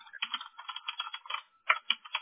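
Rapid typing on a computer keyboard while entering text, with many quick, crisp keystroke clicks in uneven bursts and one short pause before the tapping resumes.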